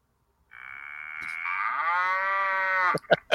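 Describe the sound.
A cow's moo played as a sound effect: one loud, long, sustained bellow lasting over two seconds, ending in a few short, sharp clicks.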